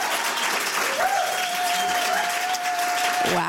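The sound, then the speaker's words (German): Studio audience applause for a full house at a live television show, a thick, continuous patter of many people clapping that stays loud and even from start to finish. “Schön, dass Sie da sind. Applaus”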